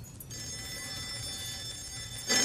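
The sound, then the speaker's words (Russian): An alarm clock rings beside a bed, a steady, bright electronic ringing tone held for about two seconds before cutting off into a short burst of noise. “Звонит будильник”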